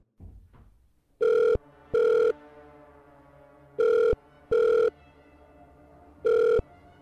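Ringback tone of an outgoing phone call: a few faint clicks, then five steady electronic tones in a double-ring pattern, two pairs followed by a single tone, with quiet gaps between.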